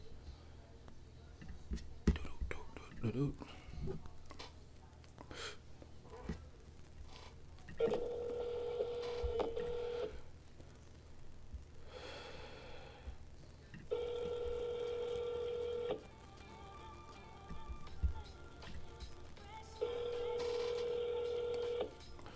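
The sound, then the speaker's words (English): A phone call being placed: soft clicks and faint noise come first, then a steady, low ringing tone sounds three times at regular intervals, each burst about two seconds long, with no talk. “I'm about to give him a call.”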